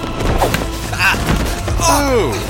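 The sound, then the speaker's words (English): Men trip over a walking cane and fall, producing several heavy thuds and a woody clatter, followed by a short falling cry. “I do apologize, gentlemen. You seem to have tripped over my cane.”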